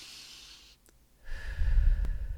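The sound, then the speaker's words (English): A deep breath is drawn in through the nose, soft and airy at first, then followed by a fuller, lower breathy rush. “take a breath, you know, just really draw in through the nose,”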